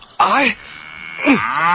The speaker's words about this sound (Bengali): কিরে গরু বাড়ি যায় নাকি?